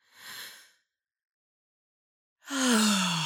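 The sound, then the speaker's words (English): A short airy breath drawn in through the nose, followed after a silent pause by a louder voiced sighing exhale whose tone falls. “One more time. There's no right or wrong amount of time to hold the breath for, so do what's comfortable for you. In through the nose.”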